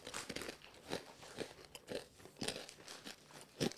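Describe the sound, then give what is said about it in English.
Wasabi peas crunched right in front of a microphone: quiet, rhythmic chewing with many crisp crunches about every half second, and no talking. “I love wasabi peas. Well, I'm not really surprising you, am I? No. Here, I'll take some I'll eat some in front of the mic for some ASMR.”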